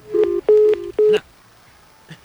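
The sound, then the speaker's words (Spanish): Touch-tone telephone dialing as a call is placed, with a few steady DTMF beeps in quick succession, then near silence and a faint blip at the end. “Y tengo una llamada telefónica”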